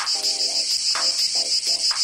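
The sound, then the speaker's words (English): Cicadas buzz loudly in Iowa, making a steady, piercing high-pitched drone that swells in quick rhythmic pulses, with a few lower buzzy bursts mixed in. “This is the sound of a cicada.”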